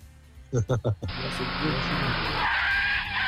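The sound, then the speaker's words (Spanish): Screeching car brakes as a sound effect: a harsh, loud tire squeal lasts about two seconds and follows a few short voiced syllables. “Frenado a raya, así. Frenado a raya. Poneme el freno, Nancita, poneme.”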